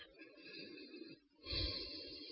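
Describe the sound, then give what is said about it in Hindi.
Faint, slow breathing in a guided breathing exercise: a soft, airy breath is followed by a brief pause, then a fuller, louder breath with a low rush of air. “सांस लीजिए और छोड़िए।”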